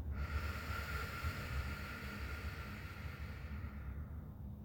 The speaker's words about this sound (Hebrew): ניקח שאיפה עמוקה דרך האף, ונשיפה ארוכה ואיטית דרך הפה.